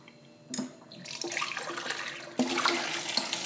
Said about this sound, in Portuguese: Deixa eu lavar um pouquinho.